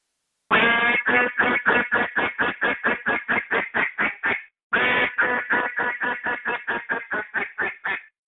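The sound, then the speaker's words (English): Hail calls blown on a duck call to attract distant ducks: two long runs of many loud, rapid quacks, each run tapering in volume, separated by a brief pause. “So you're going to blow two or three hail calls to get their attention, and they sound something like this.”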